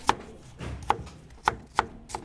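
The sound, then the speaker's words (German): Knife chopping leek in a kitchen: five crisp, fairly loud chops with uneven gaps between them, and no talking. “Ich zerteile den Porree fürs Essen gleich.”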